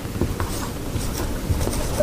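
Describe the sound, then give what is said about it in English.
Writing strokes on a board, a steady scratchy rasp that runs continuously through the moment at a moderate level, with no voices over it. “So I want to write that down. His coming and our gathering, okay? I'll just write that up here.”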